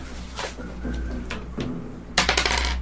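Ten-sided dice roll on a table during a tabletop role-playing game damage roll. A few faint, light clicks come first, then a quick burst of rattling, clattering impacts near the end.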